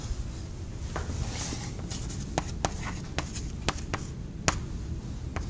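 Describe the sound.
Handwriting as math is written out: faint scratchy pen strokes broken by several sharp taps, steady and quiet with no talk.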